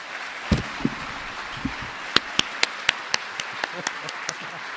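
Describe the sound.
An audience applauds to welcome a lecturer at UCSB, a steady wash of clapping with several sharper single claps standing out at fairly regular intervals.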